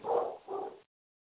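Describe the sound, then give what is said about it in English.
A dog barks during a conference call: two muffled, broad barks in quick succession, the first slightly longer, followed by silence. “Sorry. A dog was barking, sir.”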